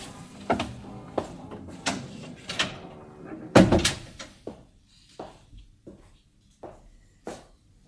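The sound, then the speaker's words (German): A door opens as a visitor comes in, heard as a string of short clacks and knocks with one louder bang midway. The handling sounds continue in irregular taps afterward, with no talking. “Ja, kommen Sie rein, die Tür ist auf.”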